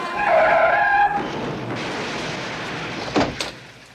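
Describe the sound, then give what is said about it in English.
Car tires skid in a crash: a loud, high screech lasts about a second, then a duller rushing noise continues, with a short sharp burst near the end. “Suzanne's had a wreck. I gotta tell you, I've seen a lot of accidents in my time”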